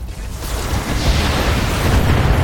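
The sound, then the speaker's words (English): A building blowing up in a video game, heard as a loud, continuous roaring rumble of blast noise that swells slightly and holds steady for over two seconds. “One building down. 3 out of 4. Target destroyed.”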